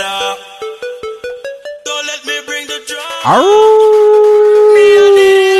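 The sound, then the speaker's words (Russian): Wolf howling: a run of short, rhythmic tonal calls leads into a long, loud howl that rises steeply, then holds a steady tone to the end. “Вот так вот делают волки, собаки иногда.”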